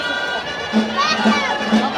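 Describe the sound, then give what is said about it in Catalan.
A crowd cheers and shouts at a festa major parade with capgrossos, and children's high shouts stand out. The noise is a steady, busy roar that swells slightly in the second half. “els aplaudiments a tot el públic que els acompanya, que els envolta”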